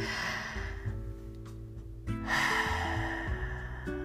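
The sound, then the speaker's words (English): A deep breath drawn in and then slowly let out, a soft airy rush over steady background music, with a quieter pause between the inhale and the longer exhale. “So the first tip that he gave was to take a deep breath. So let's all do that collectively, okay? Ready?”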